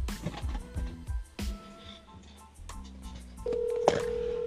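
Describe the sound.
Ringback tone of an outgoing phone call to someone in another state and time zone: a steady, unbroken electronic tone that starts near the end and holds for about a second after other busy sounds.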